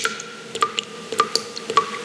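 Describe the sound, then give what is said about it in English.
A leaking tap drips in many quick, bright plinks, and each drop carries a short ringing tone. The drips fall at an uneven rhythm, quiet and alone with no voices. “The tap's dripping, and you're leaving it”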